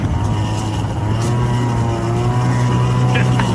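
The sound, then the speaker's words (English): A moped engine revs and strains while stuck on loose gravel, making a steady, loud buzzing drone with a fairly constant pitch throughout. “I got to go down here. You can hear me kind of get stuck here. I had to kind of gas it up.”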